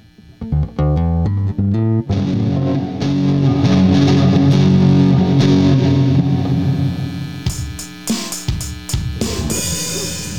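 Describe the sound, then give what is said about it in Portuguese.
Electric guitar through an aggressive distortion effect: a few quick picked notes, then a thick, loud distorted chord ringing out at length, breaking into choppy bursts with hiss and noise toward the end. “Foda da distorção mais agressiva é o ruído.”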